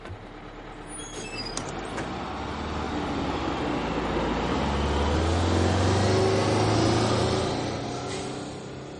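A school bus rumbles with a low, steady engine drone that swells to a peak past the midpoint and then eases off, with a few faint high squeaks early on.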